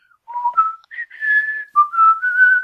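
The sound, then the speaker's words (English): A short nonsense phrase is whistled, not an existing tune: several clear notes that step between lower and higher pitches. The whistling is bright, fairly loud and heard alone, with brief gaps between notes. “just remember to whistle that nonsense little phrase.”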